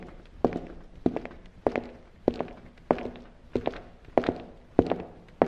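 Footsteps of someone walking around in a larder form a steady series of evenly spaced footfalls, each a soft thud with a slight scuff. They are moderately quiet, with no talk.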